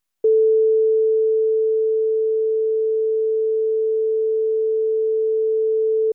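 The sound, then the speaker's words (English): Two identical digitally tuned tones at exactly the same pitch merge into one pure, steady hum that holds unwavering for about six seconds, starting and stopping abruptly. “we are going to start with two tones, but you won't be able to tell that there are two tones. And that's because they are digitally tuned to exactly the same frequency. Here is what that sounds like.”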